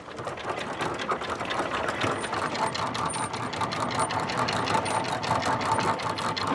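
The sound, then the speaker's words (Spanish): Anchor chain of a large boat being hauled up from a seagrass bed: a rapid, continuous mechanical rattle and ratcheting clatter at a fairly even level, with sharp metallic clinks scattered through it. “vamos ahora a proa a ver si levantan un poco de Posidonia en la cadena.”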